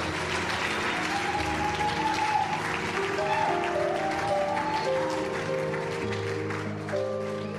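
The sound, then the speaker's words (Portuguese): An audience applauds for Jesus during a bilingual English-Portuguese sermon. The clapping is dense and sustained at a steady, moderate level and eases slightly toward the end. “Put your hands together for Jesus. Uma salva de palmas para Jesus.”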